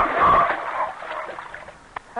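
A seal is pushed into water with a loud splash at the start that trails off into softer sloshing. A short sharp knock comes near the end.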